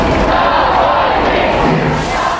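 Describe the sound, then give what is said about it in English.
A large crowd of mourners chants a slogan together while walking from a church to a cemetery after a funeral, producing a loud, dense, continuous roar of voices throughout. “And a large crowd of mourners walked from the church to the cemetery, chanting, "Free political prisoners."”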